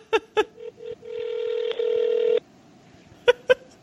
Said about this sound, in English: Will they answer or won't they? Let's see. It's 8 p.m. in Kentucky. It's right during dinner time. Isn't there a voicemail I can leave? We're calling the Kentucky Castle.